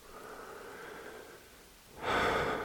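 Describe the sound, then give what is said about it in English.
A person breathes out once during a guided meditation inquiry: a soft, breathy rush of air that rises suddenly out of near quiet and holds briefly to the end. “There was the answer. You breathed out.”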